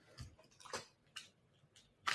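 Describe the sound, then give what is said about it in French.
Faint sips and swallows as someone drinks a little water from a bottle: a few soft, wet gulps spaced irregularly across a quiet moment. “Je bois un petit peu d'eau”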